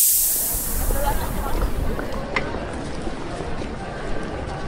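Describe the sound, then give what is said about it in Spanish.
A spaceship's hatch doors open with a hiss after landing, a broad airy rush that begins bright and loud, then settles into a steady, slightly fluttering hiss lasting several seconds. “Aterrizaje exitoso. Abriendo compuertas.”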